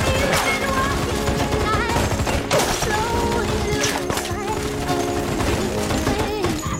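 Gunfire in a film scene crackles in rapid bursts amid a dense, loud soundtrack, with sharp cracks scattered throughout and no pause in the noise.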